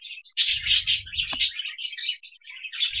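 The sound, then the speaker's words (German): Birds chirp in quick, high-pitched tweets that repeat almost without pause, with a brief low rumble early on. “Ich finde dieses Vogelgezwitscher irgendwie süß im Hintergrund.”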